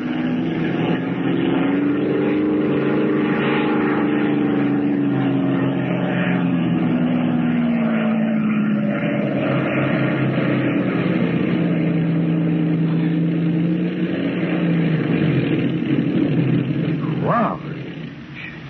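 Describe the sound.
A propeller airplane engine drones as the plane lands in a rocky field. The loud, continuous roar slowly lowers in pitch, then drops off and fades near the end.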